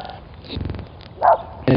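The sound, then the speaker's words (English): A small white puppy barks in a few short, sharp yaps separated by quieter gaps, with the final burst cut off at the very end. “little white puppy is fighting for the right to bark at us.”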